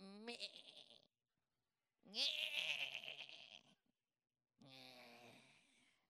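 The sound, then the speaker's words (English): Lamb bleating in three separate wavering, nasal calls, each about a second or longer with short silent gaps between them. The bleats are loud and clear, with no other sounds around them. “I don't know who that is, but that sounds like a lamb.”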